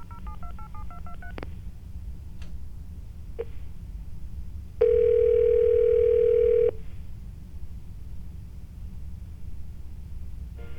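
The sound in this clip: A telephone dials a toll-free number with a quick run of touch-tone digit beeps, then a few clicks, then a steady, loud tone lasting about two seconds over a low background hum.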